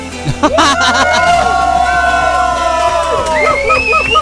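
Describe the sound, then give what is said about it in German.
A crowd at a live event yells and cheers loudly, with high whoops and sustained shouted tones rising over a continuous babble of voices. “Ja, ich mache das Mikro nochmal auf. Ihr könnt nochmal schreien.”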